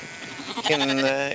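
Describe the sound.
A sheep on a farm lets out a single wavering bleat that starts partway through and holds to the end, loud and clear.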